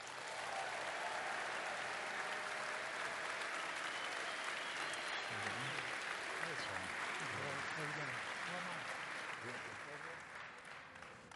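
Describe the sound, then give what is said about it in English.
An audience cheers and applauds steadily as the president of the New York Football Giants walks out at a 2018 season event. The dense clapping continues throughout with a voice briefly audible midway, easing slightly toward the end. “when you go 3-13, you don't expect to get cheered when you walk out of the stadium. So thank you very much.”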